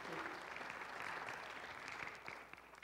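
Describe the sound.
Audience applause welcomes a guest speaker at a church summit: dense, steady clapping, fairly soft, that tapers off slightly toward the end.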